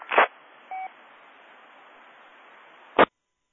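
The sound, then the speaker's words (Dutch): A single short telephone dialing tone sounds over a steady hiss of radio static on an amateur radio link, framed by brief bursts of static at the start and end. “de telefoon mag u laten overgaan bij Willem. Maar ik zal even kijken of Willem er is.”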